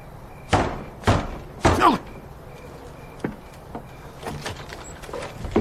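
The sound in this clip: Door sounds at a house entrance as it is opened: three loud, heavy thuds in quick succession, followed by a few fainter knocks and rattles.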